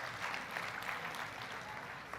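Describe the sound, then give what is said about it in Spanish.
Congregation applauding God during a Spanish-language church service: soft, continuous clapping that stays level and faint throughout. “¿Cuántos pueden dar un aplauso a Dios por eso?”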